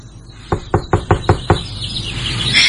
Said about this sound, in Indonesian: aku keluar dari kosanku dan mengetuk pintu kosan Ayu.